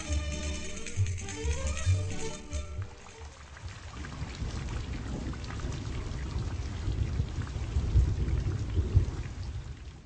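A thunderstorm with steady heavy rain pouring down, deep thunder rumbling underneath, and a continuous broad hiss of rain throughout.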